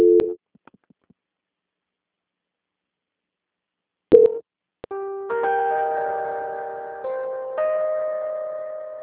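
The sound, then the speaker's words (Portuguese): Electronic tones of a phone call being transferred: a short beep, a long silent gap, a second beep, then a sustained run of layered, steady tones that shift in pitch step by step. “Eu vou fazer a transferência da ligação. Eu peço que o senhor não desligue, tá ok? Não, tá tranquilo. Transferência.”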